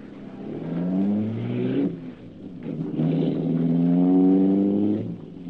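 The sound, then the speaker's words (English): The engine of a streamlined car, the Black Beauty, revs in two low, rumbling surges with a brief dip between them, its tone rising and wavering as it runs. No voices. “Cato was waiting for him, sitting at the wheel of the streamlined Black Beauty.”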